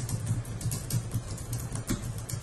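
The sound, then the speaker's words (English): Faint keystrokes on a computer keyboard as someone types a short status update. A quick, irregular run of light clicks goes on throughout. “I'm just going to type something pretty innocuous in here.”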